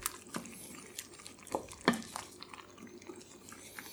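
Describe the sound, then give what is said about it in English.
Shakshuka, a tomato stew, simmering in a skillet: a soft, faint sizzle and bubbling, broken by a few light clicks and scrapes of a utensil against the pan. “Okay, I'm going to let that simmer for just another minute.”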